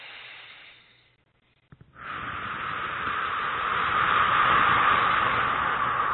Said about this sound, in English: So let's take nice deep breaths here. Close your eyes, please, and just breathe in through the nose and out through the mouth.